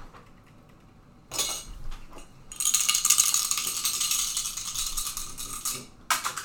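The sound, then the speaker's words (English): Dice rolled during a tabletop role-playing game, one landing on a laptop: bright clattering and rattling in a few bursts, with a longer stretch of continuous rattle in the middle and a final short clatter. “Oh no! What did it land on? I'm trying to get it. It landed on the laptop. 1. Aw. Oof. Can I re-roll? But 1. Yeah, because it landed on the laptop.”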